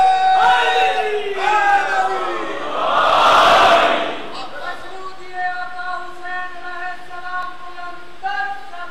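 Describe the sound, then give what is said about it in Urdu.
A crowd shouting the Naara-e-Haidari slogan in the name of Imam Ali during a religious sermon, one loud collective roar swelling for about a second between melodic chanted voice passages. “یہاں ایک نعرہ حیدری کا حق بنتا ہے, آپ لگائیے مولا علیہ السلام کے نام پر.”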